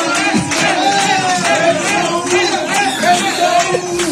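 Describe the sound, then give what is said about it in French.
Marseille fans in a bar-restaurant cheer a Dortmund goal, their shouting and whooping voices a dense, continuous clamor that stays loud throughout. “faut raconter que les Marseillais applaudissent le but allemand. Hein. Le but de Dortmund. Voilà. Les Marseillais, quand les Allemands marquent, ils sont vent debout.”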